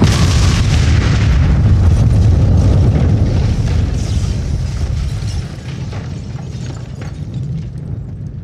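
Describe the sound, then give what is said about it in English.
A propane flamethrower tank bursting into a plasma fireball, a loud, dense, sustained roaring rumble that holds steady, then eases slightly in the later seconds. “Propane meant that my dumbass firebug probably shot a hole in the flamethrower thing. Once that went up, it reacted with the other ingredients to make a nice plasma fireball.”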